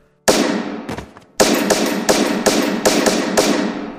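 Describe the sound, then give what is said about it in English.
A gun fires repeatedly: one sharp bang, then a rapid string of many loud, cracking shots. “The first shot exploded John's head as the body fell back onto the floor. Ryan's eyes were wild as he pumped the body full of bullets.”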